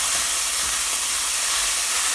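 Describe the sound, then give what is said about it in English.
Meat sizzles hard as it browns in a hot pan on the stove. The hiss is loud, bright and unbroken from start to finish, with no talking over it. “That meat is sounding very sizzly. So I'm gonna have to raise my voice. So go back over here and break it up a little and turn down the heat.”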